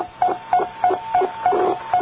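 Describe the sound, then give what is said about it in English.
A radio beacon beeping at 4.717 megahertz, received strongly on sideband: a steady series of short, even, mid-pitched beeps about a third of a second apart, sounding over a hiss of static. “No, I heard it beep, beep, beep in the background.”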